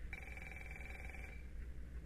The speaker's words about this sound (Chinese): 稍等一下，喂，是个业务电话。